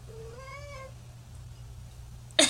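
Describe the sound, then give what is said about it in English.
A single clear meow from a small house cat, drawn out with a slight rise in pitch, over a steady low hum, followed by a brief sharp noise at the end. “That was our cat. That was our little cat.”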